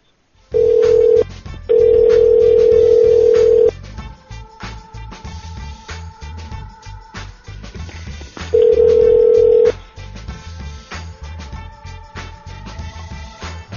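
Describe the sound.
Telephone ringback tone from an outgoing call: a steady mid-pitched tone sounds in three separate bursts, the middle one longest, over a low background hum and faint noise.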